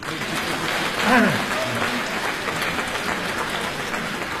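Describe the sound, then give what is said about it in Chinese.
Audience applause at a live crosstalk comedy show: steady, dense clapping that runs the whole length at an even level. A brief voice rises over it early on. “再鼓掌。”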